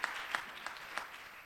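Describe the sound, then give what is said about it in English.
Applause for guests at a church service: a faint, even patter of clapping with a few sharper claps standing out. “Why don't you applaud them for being here in the house of the Lord?”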